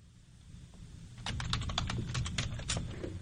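Typing a text message: a quick run of light clicks and taps starts after a quiet second and carries on to the end.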